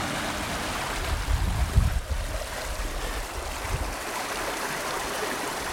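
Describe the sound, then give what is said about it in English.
A flowing stream in an unspoilt Peak District valley: water rushes as a steady, full hiss throughout, with a few heavier low rumbles in the first two seconds. “as I'm sure you can hear, I am next to the most beautiful, beautiful stream.”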